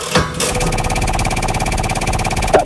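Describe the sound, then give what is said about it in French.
A game show prize wheel spins with a rapid, steady stream of loud ratcheting clicks that continues throughout, with a brief louder knock near the start and another near the end. “ce que je vais tout de suite faire, c'est lancer la roue, vous dites stop”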